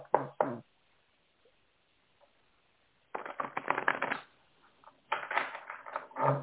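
Cards are shuffled and laid out for a reading: a short rattling burst at the start, a pause, then longer stretches of quick papery riffling and slapping.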